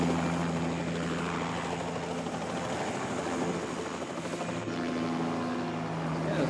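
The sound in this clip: A helicopter flies in a video game, its rotor and engine making a loud, continuous whirring roar that holds steady without breaks.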